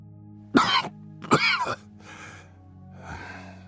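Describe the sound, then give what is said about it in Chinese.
A man coughs while choking on smoke at a table, with two sharp, loud coughs followed by two softer, raspier throat-clearing bursts. “刚要开口说话就被呛得咳嗽起来”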